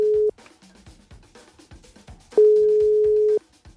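Ringing tone of an outgoing international telephone call: a steady, pure tone, first a brief tail and then one ring of about a second. Faint background sounds fill the gap between them.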